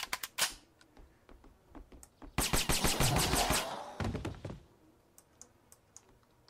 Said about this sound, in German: Mal MP5 nachladen.